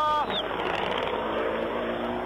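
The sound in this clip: A rally car, number 51, approaches along a rally stage at El Tejar, its engine a loud, steady, coarse drone that holds throughout without a break.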